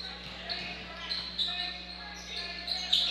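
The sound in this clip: A basketball is dribbled on the court during a boys' basketball game. A few faint, sharp bounces sound under voices and a low background hum.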